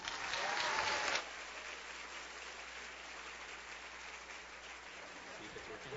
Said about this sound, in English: Please give her a very, very kind welcome.